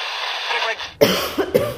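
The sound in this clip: Coughing from someone choking on dust inside an old church building: one sharp cough, then a couple of shorter rough bursts over a steady background hiss.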